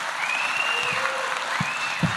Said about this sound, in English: In the theater, applause is encouraged.